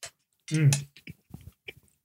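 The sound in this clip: Crunchy snack being eaten: after a short burst of voice, several brief crisp crunches and chewing sounds follow in an uneven rhythm.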